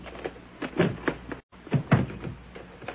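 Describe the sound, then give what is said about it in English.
A suitcase is opened, heard as a run of soft clunks, clicks and rustling handling noises, fairly quiet throughout. “Now open the bag.”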